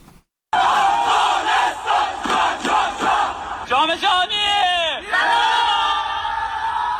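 Crowds cheer to welcome Afghanistan's national futsal team in the provinces, with loud whoops and shouts. After a brief silence, they come in bursts and rhythmic rallying calls, then settle into sustained roaring.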